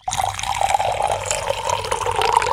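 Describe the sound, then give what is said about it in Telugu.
Water pours into a glass, filling it about halfway for a salt-and-mothball-powder dissolving experiment. A steady, unbroken splashing trickle runs for the whole moment at an even level, with no voices over it. “మీరిద్దరూ చెరో glass తీసుకోండి, వాటిలో సగం వరకు నీరు పోయండి”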